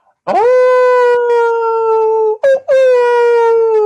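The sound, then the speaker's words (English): A long, loud howl, like a dog or wolf, rises quickly at the start and holds a steady mournful pitch, breaks off briefly, then resumes. The howling comes from deep within a park. “and you start to hear howlings”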